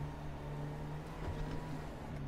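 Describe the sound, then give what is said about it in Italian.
A citizen's personal vehicle driven in a video game gives a steady, low engine drone with a constant hum and slight fluctuations in level, and no voices. “Per farlo diventare attivo, ci muoviamo un po' con il nostro veicolo, con il veicolo del cittadino.”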